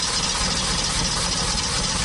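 A Mercedes-Benz car engine sounds as a loud, steady, even rumble with no clear change across the short stretch.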